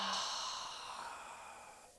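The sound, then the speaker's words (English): A long, breathy exhale during a guided breathing meditation, a soft airy rush that starts strongest and slowly fades over about two seconds, with no talk over it. “And exhaling, letting the hands fall.”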